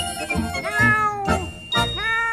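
Cat meowing in a quick series of loud, drawn-out, wavering cries, several in a row with brief gaps, the last one higher and more strained.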